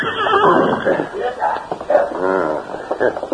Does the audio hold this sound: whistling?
no